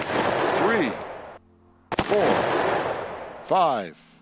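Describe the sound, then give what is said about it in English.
Radio drama gunfire with whining bullets: loud bursts of shots broken by sharp cracks, with whistling ricochet sweeps through several of the bursts. “Bullets whine thickly about the Avenger as he pursues his quarry to the roof.”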